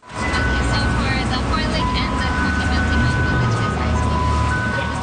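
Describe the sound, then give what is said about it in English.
Ice cream truck in Richmond, British Columbia, playing its chiming tune, a string of bright electronic notes ringing over a steady rumble of engine and traffic noise. “the sound of summer in Richmond, British Columbia. An ice cream truck doling out cone after cone of soft serve.”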